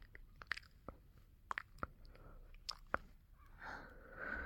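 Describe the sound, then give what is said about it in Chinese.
Licking cream off a nose: a series of wet, sharp mouth clicks and smacks, scattered irregularly, ending in a softer breathy, moist sound. “那我就沾一点奶油，蹭到你的鼻尖上，然后用舌头舔掉它。”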